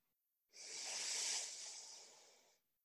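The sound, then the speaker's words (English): One long, deep breath during a guided meditation: a soft, airy hiss that swells, holds for about two seconds, then fades, alone in near silence. “we're going to take another 5 deep breaths in and out together”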